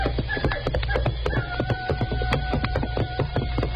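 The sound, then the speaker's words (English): Hoofbeats of horses picking their way through mesquite brush while riders cross a ranch at night: steady, evenly spaced clopping over a constant low hum. “Hoppy's horse at the moment is picking his way through the mesquite beside that of California as the two men ride across the great Flying K Ranch on their way back to their own spread, the Bar 20.”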